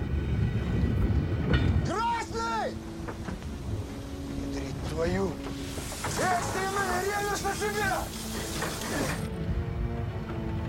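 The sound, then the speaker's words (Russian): A steam train moving forward along rails while uncoupled wagons roll toward it: a continuous loud rumbling, clattering rail noise with bursts of wavering tonal sound over it. “Поезд движется вперед. Навстречу по рельсам катятся отцепившиеся вагоны.”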